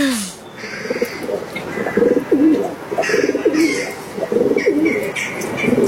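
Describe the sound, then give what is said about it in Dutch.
Pigeon cooing in a chimney: a series of low, soft, throaty coos repeats in a rolling rhythm, with faint higher chirps in the background. “Want we luisteren naar een duif die door de schoorsteen koert.”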